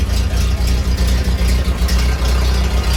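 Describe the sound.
An old Ford car, a garage find, idles with a loud, steady low rumble. Regular pulsing beats run evenly throughout without pause.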